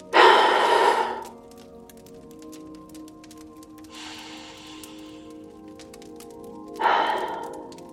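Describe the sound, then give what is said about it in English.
Three deep breaths taken slowly with quiet pauses between them: the first loud and airy, the second softer, the third strong again. “begin with three deep breaths. Here we go.”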